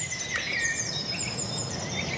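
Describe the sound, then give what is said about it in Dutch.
A common blackbird and a chaffinch sing together, overlapping clear whistles and brisk trilling phrases over a soft hiss, moderately loud and continuous without pause. “Dat is nu Merel en Vink die het meest aanwezig zijn.”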